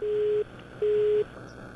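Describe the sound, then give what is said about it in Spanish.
Busy tone after a dropped phone call: two steady, mid-pitched beeps of equal length with a short gap between them, faint and heard alone. “Se nos cortó la llamada con Ernesto Murro. Bueno, vamos a ver si la podemos recuperar nuevamente.”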